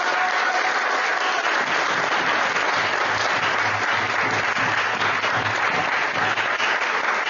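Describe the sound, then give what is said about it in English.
A devotee gathering gives its youth a big round of applause. Loud, dense clapping runs evenly from start to finish without pause. “Let's please give them a big hand.”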